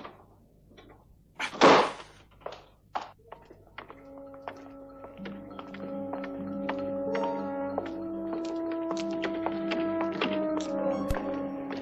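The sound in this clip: A door is opened with one loud, heavy thunk, followed by a few softer taps, before sustained tonal music rises and carries on to the end.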